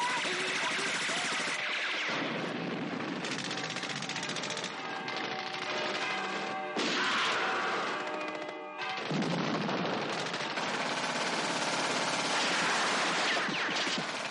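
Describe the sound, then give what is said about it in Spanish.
Gunfire in a 1970 World War II war film, as American soldiers fire furiously at the facade of a dark building where German soldiers emerge, sounds as sustained, loud volleys of shots across the whole stretch. “Pequeño Joe dispara desde una ventana, a la vez que vidas y Willard disparan enfurecidos contra la fachada del edificio oscuro, del cual van saliendo militares alemanes que caen muertos al instante.”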